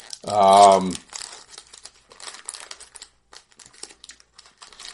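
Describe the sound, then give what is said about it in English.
Packs of 1993-94 Premier hockey cards are torn open with crinkling and light crackling of wrappers, quick irregular rustles following a brief loud burst of voice. “Let's open these hockey cards. All right. We're going to open up the 93-94 premiere first.”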